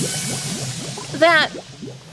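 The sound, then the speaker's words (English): A brief warbling, bubbly chirp rises out of a low steady hum as a complicated potion is stirred three times counterclockwise, standing out loudly for a moment before fading back into the background. “I've never made a potion quite this complicated before. 3 counterclockwise stirs, and...”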